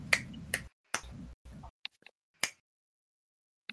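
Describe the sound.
Finger snapping as applause: several crisp, sharp snaps in an irregular sequence, each short and bright, separated by brief gaps and ending with one last snap after a pause.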